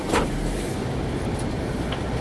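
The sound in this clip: A car driving along the road, heard from inside as a steady, low rumble of engine and road noise with no clear talk.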